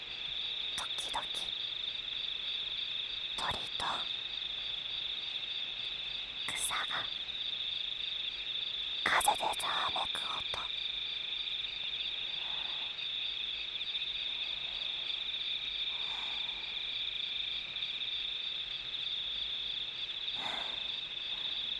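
Insects chirping at night: a steady, shrill, high-pitched drone runs through the whole clip, with a few brief louder bursts scattered over it.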